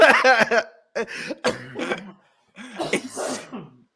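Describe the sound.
A person coughing and clearing their throat in several harsh, rasping bursts of uneven length separated by short pauses, fairly loud.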